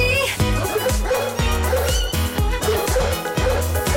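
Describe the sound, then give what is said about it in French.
Dog-like yips and whimpers ring out over dense, steady music with a regular beat at the end of a song. “c'est le chien qui parlait à la fin?”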